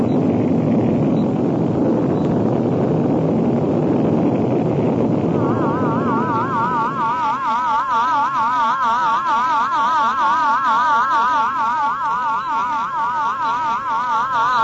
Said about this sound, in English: 9, 8, 7, 6, 5, 4, 3, 2, 1. Blast off!